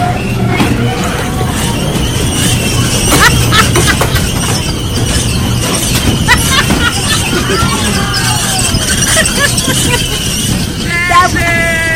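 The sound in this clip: A squeaking amusement ride gives off high squeals and short rising sweeps over constant loud crowd chatter and background noise.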